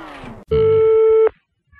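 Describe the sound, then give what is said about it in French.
A telephone ringback tone as a radio station in Avignon calls a listener live on air: one steady, mid-pitched tone of under a second, preceded by a short stretch of voice. “Bonjour, c'est la radio d'Avignon qui vous appelle.”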